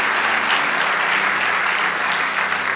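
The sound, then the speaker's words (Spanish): A church audience claps for God during a sermon. The applause is dense and steady, a loud unbroken wash of many hands that holds at an even level throughout. “Vamos, dale ese aplauso al Rey de Dios.”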